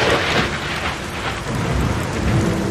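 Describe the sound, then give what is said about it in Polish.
Heavy thunderstorm rain pours steadily during a downpour beside a motorway, water streaming down car windows, a dense, even hiss with low rumbling underneath and no pauses. “Błyskawice, trzask jak dartej blachy.”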